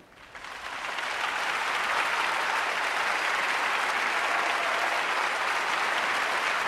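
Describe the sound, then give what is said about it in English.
Theatre audience giving a standing ovation after a puppet dance piece, a dense sustained roar of clapping that swells up within the first second and holds steady throughout. “The audience give the piece a standing ovation, and Malkovich and the puppet take a bow.”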